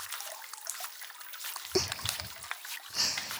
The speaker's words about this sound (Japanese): こちらを丁寧に洗い流してまいりますからね。